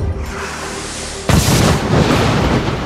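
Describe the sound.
Gunfire from a gunboat: a sudden loud blast breaks over a steady noisy background, then a sustained, heavy, rumbling roar with no voices.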